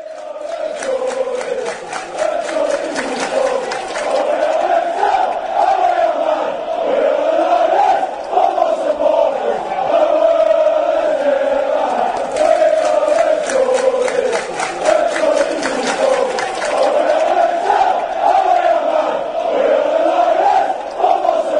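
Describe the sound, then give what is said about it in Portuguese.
Newcastle United supporters chant in unison that they are Geordies, a loud massed chorus of voices holding a steady rhythmic pulse without letting up for the whole stretch. “agora a gente vai ouvir a torcida cantando orgulhosamente que eles são Jordis.”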